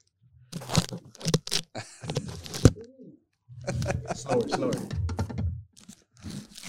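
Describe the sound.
Packing tape is pulled off a package during an unboxing, giving tearing, crinkling and crunching bursts mixed with people talking.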